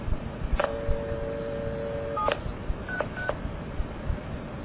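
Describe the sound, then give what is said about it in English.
Touch-tone dialing of 411 on a telephone line: a long steady two-note tone followed by three short dual-tone beeps, thin and band-limited, with no voices. “The following I did was I dialed 411 and I went to an intercept operator. This is how it sounded.”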